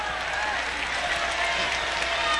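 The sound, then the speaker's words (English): Audience applause welcoming a TV weatherman onto the stage at a blues concert in Chicago: a loud, continuous roar of many hands clapping with crowd noise that stays steady throughout. “give a big round of applause for the weatherman from WBBM, Channel 2 News, at 6 p.m. and 10 p.m. How about a big round of applause and welcome for Steve Baskerville.”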